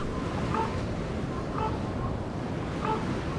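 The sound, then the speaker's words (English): Wind whips against bare cliffs on a cold, clear February morning, a dense continuous roar of rushing air and buffeting that swells slightly in a few soft gusts. “the wind doesn't stop whipping against these naked cliffs.”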